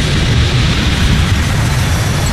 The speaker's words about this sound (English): So here's the bomb.